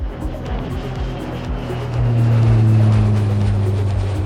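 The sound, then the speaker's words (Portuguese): Small jet airplane engine roaring on takeoff, a steady low rumble that swells noticeably louder partway through and holds a heavy drone to the end. “Aperte os cintos, deixe o seu assento na posição vertical, verifique se a bandeja está bem presa, porque é hora do nosso jatinho decolar.”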